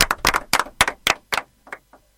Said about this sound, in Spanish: nos vamos con un fuerte aplauso como siempre